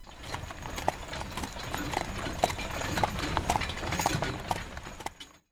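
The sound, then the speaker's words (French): Hooves clip-clop steadily as a horse-drawn carriage moves along a path: many even, sharp hoofbeats at a brisk walking rhythm over a continuous low rumble. The hoofbeats hold a fairly constant level and stop abruptly at the end. “Ferme les yeux un instant et imagine une calèche avançant sur un chemin.”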